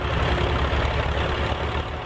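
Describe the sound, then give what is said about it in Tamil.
A tractor engine idles with a steady, heavy low rumble and a dense mechanical drone that holds an even loudness throughout, with no voices. “உன் எதிர்க்க tractor நிக்குது பாருப்பா. ஆமா, ஒரு tractor நிக்குது.”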